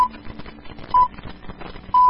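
Radio studio time signal: three short, high, even beeps spaced about a second apart, marking two o'clock over a faint, busy background.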